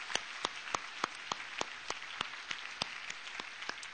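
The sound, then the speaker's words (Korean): Faint, steady clapping from a church audience at an early-morning prayer service, with sharp claps falling in an even, fairly quick rhythm throughout. “우리 아침 이슬과 같은 Young Adults Group 우리 청년부에게 다시 한번 격려의 박수입니다.”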